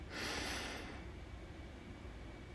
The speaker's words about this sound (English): Deeply inhale your power through your nose.